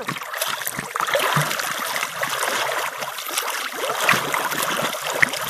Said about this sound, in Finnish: Otetaanko laiturin päähän ja kroolaa taas. Eli ui vaparia tosi hienosti kuin äskenkin.